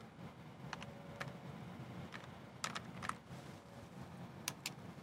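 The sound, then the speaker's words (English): Faint typing on a computer keyboard as a setup command is entered at a command prompt: scattered key clicks, some in quick pairs, over a low steady hum. “And at the command prompt, we want to type in setup. .exe, configure,”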